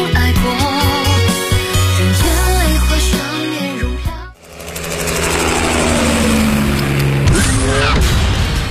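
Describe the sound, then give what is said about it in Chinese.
Roar of a V8 sports car engine with all-wheel drive and an all-aluminium build, a loud harmonic revving sound that cuts out sharply midway and then returns as a dense, rushing engine noise. “车身线条大胆前卫，配备 V8 引擎，全时四驱系统，全铝机油发动机，最高时速超过每小时300公里”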